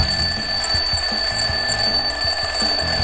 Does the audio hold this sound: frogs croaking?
no